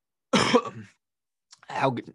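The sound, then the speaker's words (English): A harsh, noisy cough comes from someone talking into a microphone. After a short silence, another rough, throaty burst follows. “not coughing would be good in the middle of the podcast”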